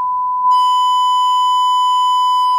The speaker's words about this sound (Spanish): Bueno, el pitido era yo diciendo tacos, no es un pitido que yo hiciera con la boca.